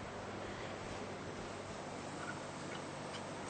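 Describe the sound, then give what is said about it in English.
Garlic sizzles in a hot pan: a quiet, continuous hiss with faint crackles, steady throughout and without talk. “And then now I'm going to add my garlic.”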